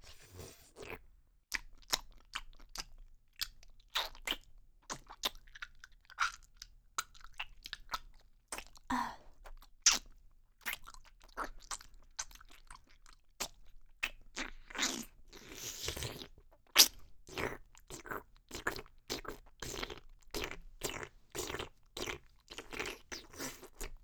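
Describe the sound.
Someone chewing and crunching food: many crisp, sharp crunches come in an irregular rhythm, and they grow denser and louder in the second half with no voices.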